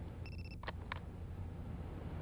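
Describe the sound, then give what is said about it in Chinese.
A telephone rings in a detective agency office as a call arrives at seven o'clock: a short, high electronic trill, then two brief chirps, faint over a steady background hiss. “看来又是那个女的，这个神秘的女人每天都会在7点整打电话来。”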